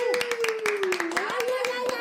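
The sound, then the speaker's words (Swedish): Audience applause for a guest on a Swedish show, heard as a quick run of sharp, separate handclaps at a brisk rhythm, with a voice sounding out over them throughout. “En stor applåd för Tilde Fröling! Woho!”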